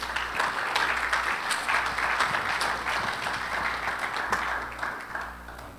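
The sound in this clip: Applause from a church audience welcoming a guest speaker at a Grace Fellowship Church morning service. The clapping is dense and continuous at a moderate level and eases slightly toward the end.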